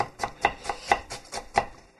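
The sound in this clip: Knife finely chopping half an onion, a quick series of about seven crisp, sharp strikes in an uneven rhythm, each a short clack against a hard surface, with no talk over them.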